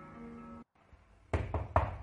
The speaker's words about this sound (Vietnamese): Tiếng gõ cửa vang lên, khạch một cái